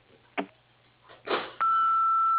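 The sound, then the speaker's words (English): A single answering machine beep rings out as one long, steady, clear tone that holds to the end, after a few faint clicks and rustles. “After the beep, please leave me a message.”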